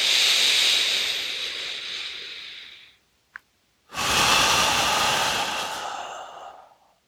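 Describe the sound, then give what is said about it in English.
Strong, powerful exhales with the belly pulled in during breathwork: two long, loud, breathy rushes of about three seconds each, separated by a short silent gap with a tiny click, no talk. “Strong exhale, powerful exhale, pulling the belly in.”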